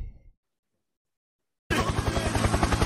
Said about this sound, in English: Helicopter, helicopter. Yeah, that was a helicopter. Nice helicopter.